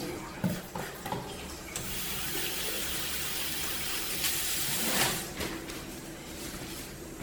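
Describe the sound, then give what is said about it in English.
Hands are washed under a running tap: a steady, moderately quiet stream of water with light splashing, a little stronger near the start and toward the end, with no voices. “And wash my hands.”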